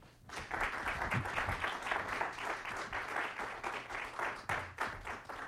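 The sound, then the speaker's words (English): An evening lecture audience at the Catholic Information Center applauds to welcome the speaker. The clapping rises quickly and holds as a steady patter of many hands through to the end. “Please help me to welcome our speaker this evening.”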